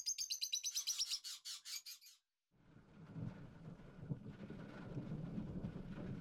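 Spring birdsong: rapid, high chirps repeating in quick succession, loud and clear, that stop abruptly after about two seconds. A short gap follows, then a low rumbling, windy noise.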